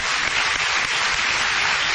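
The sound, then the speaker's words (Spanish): Audience applause at a book fair in Las Varillas: a dense, steady wash of many hands clapping that holds at an even loudness for the whole stretch, with no voices on top. “Muchas gracias. ¿Lo pueden aplaudir?”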